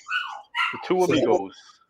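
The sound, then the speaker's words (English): An agitated pet dog gives a few quick, high, tonal barks and whining yelps in close succession. The sounds are loud and clear, with no talk. “I don't know if you guys can hear my barking dog in the background.”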